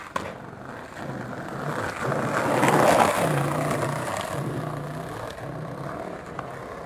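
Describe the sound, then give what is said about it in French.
A skateboard ridden by a young man beside a bike path, giving a steady rumbling roll that swells to a peak midway and then eases off, with no talk. “jeune homme avec un skateboard.”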